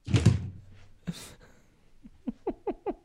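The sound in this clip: Knocking at a glass basement door: a dull thud and a brief scrape first, then a run of quick, sharp knocks toward the end, evenly spaced and moderately loud.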